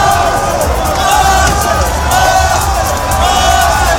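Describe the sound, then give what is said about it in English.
Football fans in the streets of London after a Champions League final loss make a loud, continuous crowd roar of cheering, whoops and chatter blending together without pause. “There's been fireworks and pink smoke, and everyone is cheering.”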